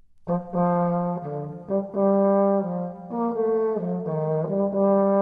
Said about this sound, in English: That's the sound of one of the oldest instruments in use today. It's called a serpent because it looks like one, only it's made of wood and covered in leather